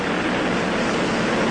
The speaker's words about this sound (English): Ignition and liftoff. We have liftoff of Challenger in Space Lab 2. The shuttle has cleared the tower.